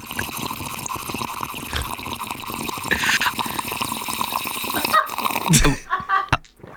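A person imitates a dog as Foley, making growling and whimpering dog-like vocal sounds over a dense, continuous bed of rustling noise and watery trickling, with a few sharper sounds near the end.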